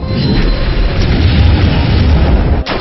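Meteor Rush attack in a monster-battling video game: a loud, sustained explosive roar with a dense, rumbling blast texture, capped by a sharp burst just before the end.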